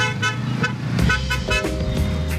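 Car horns honk in chaotic summit traffic in India: several overlapping horn blasts sound over a steady rumble of busy road noise.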